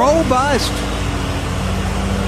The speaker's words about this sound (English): This was 7:25 this morning. Riding lawnmower.